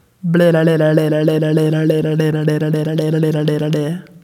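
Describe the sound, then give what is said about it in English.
A voice imitates infant blolling babble, the tongue tip rubbing against the upper lip to give a rapid, steady train of voiced b-l pulses on a level low pitch that lasts nearly four seconds. “He extends his tongue far out, and then he pulls it back in. And in doing so, he rubs the tongue tip up against the upper lip, and it sounds like a B and it sounds like an L kind of occurring in sequence or almost at the same time.”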